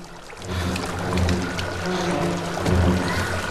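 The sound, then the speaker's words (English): Water pouring out of a keyhole and over the top of a door onto a flooded floor, a steady rushing, splashing wash that swells slightly at times. “Water pours out of the keyhole. She looks at the flooded floor. She looks up. Water pours from the top of the door.”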